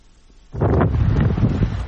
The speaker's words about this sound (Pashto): یوازې څو ورځې کېږي چې دغه خیمې لګولې دي، خو سختو بادونو ورته مخه چپک کړې دي.